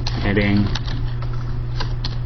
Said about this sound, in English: You can always just type it in, too.